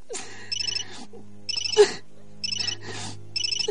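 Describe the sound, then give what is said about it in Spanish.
A mobile phone rings in four repeated bursts of bright, warbling electronic tone separated by short gaps, with no other sound holding the foreground. “Al momento, el teléfono vuelve a sonar.”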